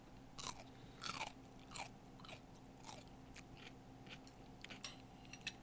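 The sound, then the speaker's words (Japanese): Crunchy chewing of a rice-bran pickled cucumber, pickled about three days, at a standing bar: a series of faint, crisp bites and crunches, with no talk. “じゃあまずきゅうりからちょっといただきたいと思います”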